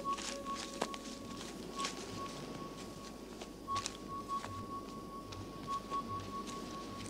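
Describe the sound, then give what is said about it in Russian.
Footsteps of people walking single file through a birch grove: soft, irregular steps, faint against quiet outdoor background noise. “Удаляются по извивающейся через поле грунтовой дороге. Цепочкой идут по березняку.”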